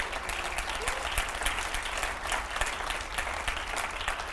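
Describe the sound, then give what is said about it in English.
Audience applause for the worship team and drummer at an evening church service, a dense, steady wash of many hands clapping that holds throughout without a break. “And the worship team tonight, I wonder if we can just give them a round of applause.”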